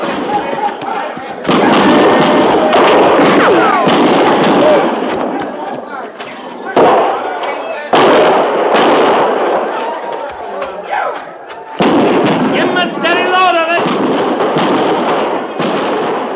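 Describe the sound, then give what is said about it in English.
Gunfire as troops open fire: loud, dense bursts of shots and blasts pound on almost continuously, with shouting voices mixed in. “Dig in! Dig in and fire!”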